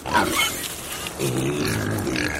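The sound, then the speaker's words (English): Pasture-raised grazing pigs being fed on a farm: rough, low grunts and snorts blend with squealing roars over a steady noisy background, and a voice seems to be speaking. “Time to feed the pigs.”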